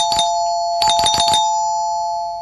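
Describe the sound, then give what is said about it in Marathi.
A doorbell rings with a short burst, then a quicker cluster of rapid pulses over a steady ringing tone that lingers and fades after the pulses stop. “अरे bell वाजली. आता कोण आलं असेल.”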